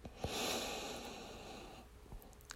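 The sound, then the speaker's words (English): A deep, slow breath drawn in through the nose makes a soft, airy rush that swells and then thins out over about a second and a half, with a few faint taps around it. “I want you to take another deep breath in through your nose”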